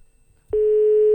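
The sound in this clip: A single steady electronic telephone tone sounds on a call that goes unanswered. It starts abruptly after about half a second of near-quiet and holds unbroken to the end.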